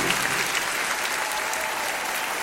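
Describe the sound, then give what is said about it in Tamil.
A church audience claps hands together to glorify the Holy Spirit during worship. The applause is dense, steady and continuous throughout, with no clear voices over it. “பரிசுத்த ஆவியானவருக்கு கரங்களை தட்டி மகிமைப்படுத்துவோம்.”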